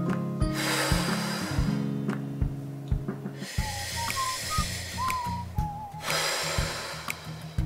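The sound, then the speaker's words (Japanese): Slow, deep breathing during a guided relaxation exercise: a few long, airy breaths rise and fade over a steady tonal backdrop, with soft whistly tones drifting between them. “ちょっとね深呼吸しましょう”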